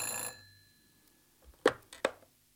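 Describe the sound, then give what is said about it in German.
A telephone ringing in a radio drama: the tail of a bright, ringing tone at the start, then after a short pause two sharp clicks like a handset being handled. “klingelte das Telefon”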